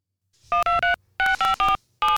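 Telephone touch-tone dialing beeps used in a voicemail intro jingle: seven crisp, loud tones grouped as three, then three, then a single final beep, each short and evenly spaced.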